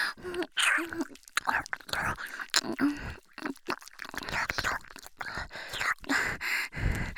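Wet mouth sounds of ear-licking ASMR: many soft smacks, clicks and slurps in an irregular flow, mixed with breathy, whispery voicing.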